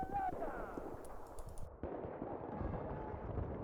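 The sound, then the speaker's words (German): Video game gunfire rattles in rapid bursts while a player shoots at markers, with people talking over the shots and a sudden shift in the mix partway through. “Ich schieß einfach nur auf Marker jetzt. Ich schieß jetzt einfach nur auf Marker.”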